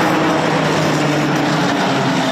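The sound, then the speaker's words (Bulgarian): A retro tram runs along the city streets of Sofia, giving a steady, loud rolling rumble with a low hum throughout and no distinct clanks or breaks. “А в края на деня по софийските улици тръгна ретро трамвай.”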